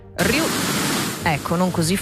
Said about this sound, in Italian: Ora io ve lo faccio sentire il rumore rosa, che suona più o meno così